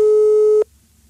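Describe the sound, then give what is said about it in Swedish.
A telephone ringing tone sounds while a call is being placed: one steady, mid-pitched electronic beep lasting just over half a second, then it cuts off to near silence. “nu ringer vi upp Rickard Sjöberg och blåser honom. Fast han svarar bara. Nu ska vi se.”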